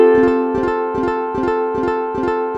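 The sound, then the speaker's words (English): A guitar runs through a delay pedal set to a long delay time. A ringing chord sustains while short plucked figures repeat about every 0.4 seconds, the echoes overlapping into a steady, loop-like pulse at even loudness. “This sounds less like a believable kind of a room reverb and more like something otherworldly and artificial. Now let's extend the time of that delay even more.”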